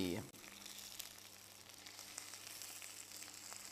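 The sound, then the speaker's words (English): Sausages pan frying give off a steady, continuous sizzle with scattered small crackles and pops throughout, over a low, constant hum. “pan fry them. And you want them to go a sort of brown color. So, here we go.”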